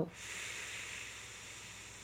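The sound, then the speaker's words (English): An exhale blown into a closed fist, a steady, airy hiss lasting about two seconds at an even level, opening with a brief soft thump. “And then exhale can be blowing into your fist.”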